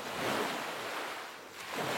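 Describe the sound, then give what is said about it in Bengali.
Ocean waves surging in a steady, rushing wash of surf that swells, eases slightly, then builds again. “আমি সমুদ্রের শব্দ শুনতে পাচ্ছি বিন্দু বিন্দু জলকণা বিশাল সমুদ্র সৃষ্টি করেছে”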